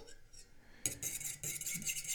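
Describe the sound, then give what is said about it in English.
A spoon stirs a powdered mixture in a pot, giving a few quick scraping and clinking strokes against the metal, fairly loud and close together, with no talking. “Just give it a nice stir. Keep on stirring. Try to break up any chunks of powdered stuff.”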